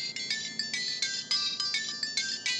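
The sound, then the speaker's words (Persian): A phone ringtone sounds while the call goes unanswered, a fast, bright electronic melody of many short chiming pulses repeating in steady rhythm, loud and alone. “نگار جواب نمیدهد و او قطع میکند.”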